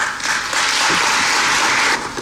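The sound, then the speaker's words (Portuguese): Audience applause at a book launch, a tribute to the Bicesse protagonists featured in a memoir. Dense, steady clapping swells in just after the start, holds evenly loud, then drops away near the end. “Peço-vos, por isso, que se associem a uma enorme e muito merecida salva de palmas em homenagem aos nossos protagonistas de Bicesse presentes nesta obra.”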